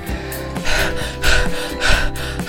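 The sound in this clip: Heavy, out-of-breath gasping: three loud, breathy inhalations at a steady rhythm over a continuing music bed, with no talk.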